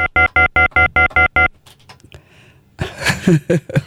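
A telephone rings as a listener calls in to a radio show: seven short, evenly spaced tonal pulses in a quick regular rhythm, followed by a burst of noisier, jumbled sound.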